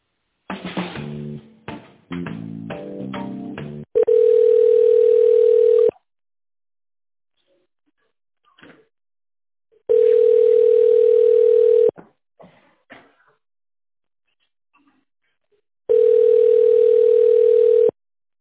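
Telephone line tones play while a call is transferred. A short burst of stepped tones comes first, then three long, steady, loud beeps, each about two seconds, separated by near-silent gaps.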